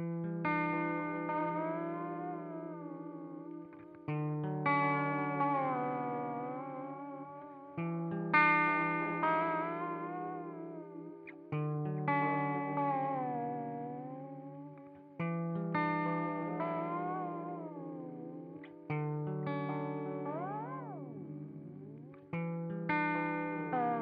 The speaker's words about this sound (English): as they say on the website, this pedal is exactly the sound you're hearing in your head when you look at this pedal. It's very cool. Here it is.